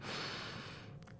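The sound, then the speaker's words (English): A slow, deliberate inhale through the nose, as if smelling a rose, heard as a faint, airy hiss that holds steady and then tapers off near the end. “We're going to take the inhale as if we are smelling a rose. So it should sound something like this.”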